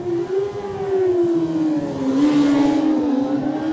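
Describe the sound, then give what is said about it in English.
Kawasaki ZXR 750 racing motorcycle pulling away from the start line at a road race, its engine holding one loud, continuous droning note that dips slightly in pitch partway through, with no talk. “next man to go will be Nathan Harrison on the Kawasaki ZXR 750, the Greenall racing machine.”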